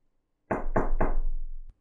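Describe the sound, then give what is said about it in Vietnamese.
Three quick, evenly spaced knocks on a room door at night, hollow and resonant with a low ringing tail after the last knock, and no voices. “Tiếng gõ cửa khẽ khàng trong bóng đêm trở nên vang vọng.”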